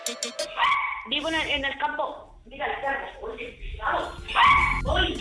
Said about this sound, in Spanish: perros.